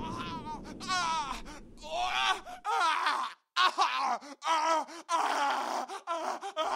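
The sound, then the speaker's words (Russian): Wounded and dying men scream and moan after cannon fire, a loud mass of overlapping anguished cries and groans that swell and break off in short gaps. “Выстрел потонул в воплях раненых и умирающих.”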